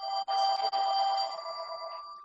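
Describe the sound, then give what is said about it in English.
A phone ringtone plays alone as steady electronic tones at an even, moderate level, with two brief breaks near the start. “somebody's phone is ringing.”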